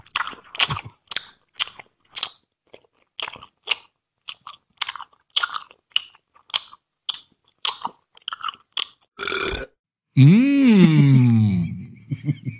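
Close-up chewing of a lemon-flavoured snack, with many crisp, crunchy bites in an uneven rhythm, followed by a long voiced moan of enjoyment.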